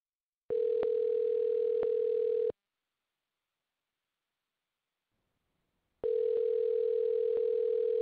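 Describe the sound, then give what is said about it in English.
A telephone call ringing through after dialing: two long, steady, buzzing ringback tones of about two seconds each, separated by a silent gap. “let's call Carmen and see if we can figure out what happened, okay? Sounds good. All right, hang on.”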